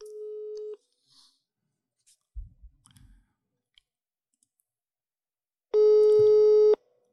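Telephone tone while calling someone: two steady, mid-pitched tone bursts about five seconds apart, with a few soft clicks and low thumps in the quiet gap between them.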